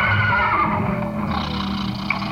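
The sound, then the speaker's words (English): A horse neighs in a loud, sustained whinny lasting about two seconds, with a rough, wavering tone and no talk over it. “Oh, yes, and this is my horse Trigger.”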